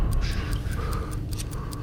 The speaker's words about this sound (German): Das Ticken wurde vernehmlicher und jetzt...